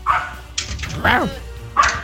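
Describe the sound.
A small pet dog gives a few short, high yapping barks, with voices mixed in between them.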